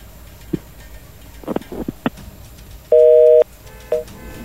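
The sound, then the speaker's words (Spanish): A telephone busy tone cuts in after a dropped call on a phone interview line. One steady, mid-pitched electronic beep lasts about half a second, then a shorter, fainter beep follows, after earlier scattered clicks and line noise. “Se cortó la llamada, ¿verdad? Se, cortó.”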